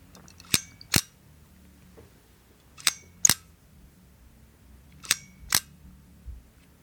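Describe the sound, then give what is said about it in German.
Crisp mechanical shutter clicks come from a Pouva Start 6x6 medium-format camera, arriving in three pairs of sharp, bright snaps separated by quiet gaps. “anbei ein Geräuschrätsel von einer Mittelformatkamera 6x6, einer Puwa Start.”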